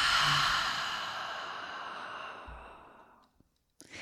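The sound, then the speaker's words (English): Deep exhale through an open mouth, a long breathy sigh that starts loud and fades steadily over about three seconds into near silence, with no talk. “let's take a huge breath in. Open the mouth. And exhale it out.”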